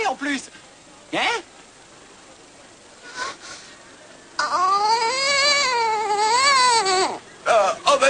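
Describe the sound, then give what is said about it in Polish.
A child cries and sobs over dropped ice cream: a few short sobbing bursts come first, then one long wavering wail that rises and falls in pitch before breaking into shorter sobs. “Moje lody. Przestań płakać.”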